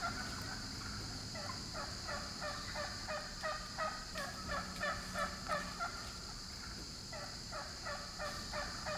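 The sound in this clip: Male turkeys gobble while strutting and parading their feathers at females: many rapid, rattling gobbles in repeated bursts, fairly faint over a steady background hiss.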